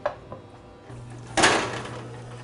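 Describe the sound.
An oven door opens to check on fish baking inside for a cheesy mackerel dish: a light click, then a low, steady hum sets in, followed by a louder clattering burst that fades away.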